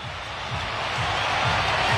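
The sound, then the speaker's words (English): A stadium crowd roars after the Stormers score a rugby try. The noise is a dense, steady wall of sound that swells slightly as it goes on. “They score. The crowd goes apeshit.”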